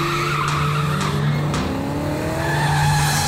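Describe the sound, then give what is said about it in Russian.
Tires squeal as a black Toyota with no license plates speeds along, with high, wavering screeches that slide in pitch over a steady engine roar. “Видую черную иномарку. Без госномеров. Слишком быстро едет, слишком быстро едет.”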